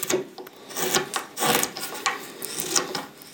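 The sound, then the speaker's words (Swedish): Knife roughly carving the outer shape of a wooden mouthpiece, a series of uneven scraping and rasping strokes on wood, some longer and louder than others, with no talking. “Jag ska bara tälja fram lite grovt ytterformen på munstycket så ska man kunna provspela den här.”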